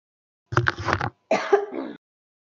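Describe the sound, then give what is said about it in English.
A person with a lingering two-week cough coughs in two short, harsh, rasping bursts separated by a brief pause, then falls silent. “I don't think I have it because I've had this cough for like 2 weeks now.”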